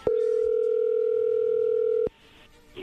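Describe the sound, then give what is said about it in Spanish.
A telephone dial tone sounds as a call is placed: a single steady, loud hum that holds for about two seconds, then cuts off abruptly into faint background noise. “A ver, vamos a marcarle, Héctor, a tu esposa Yolanda y a ver qué sucede.”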